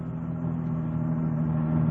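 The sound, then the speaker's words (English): A car engine drones steadily while driving toward the Echo Park residential district, a low, even hum that grows slightly louder toward the end. “Holloway came out of his apartment building, got into his car, and drove approximately 4 miles to the Echo Park residential district. He parked his car, got out”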